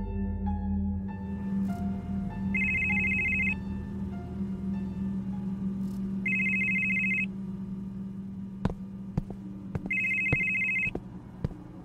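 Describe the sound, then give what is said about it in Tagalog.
A telephone rings in three separate bursts of bright electronic trilling, evenly spaced, over a low steady background hum, with a few sharp clicks near the end. “Hello? Ang tagal mo namang sumagot, Bes. Nakapitong missed calls na yata ako sa'yo.”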